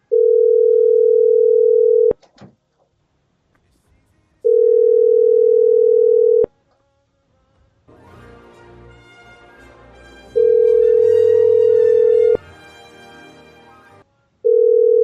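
Ringback tone while a mobile number is being dialled: a steady mid-pitched beep in roughly two-second pulses separated by long silent gaps, three full pulses and a fourth just starting, with faint music-like noise in one gap.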